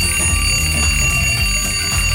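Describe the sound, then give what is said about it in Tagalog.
An alarm clock ringing, loud and continuous, with steady high-pitched tones that hold without any pause. “japon ng alarm clock”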